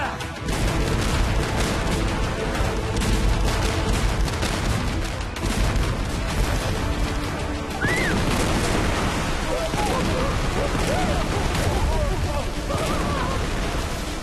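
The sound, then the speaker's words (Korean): Russian naval artillery shelling the naval port of Sinop makes a dense, continuous barrage of gunfire and heavy booms, loud throughout, with voices partly heard beneath it in the second half. “러시아 해군이 그만! 계속 포탄을 쏴라!”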